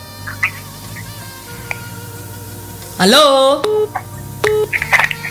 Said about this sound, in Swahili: Sasa naona kuna watu wameshaanza kupiga simu hapa, wana lao la kusema.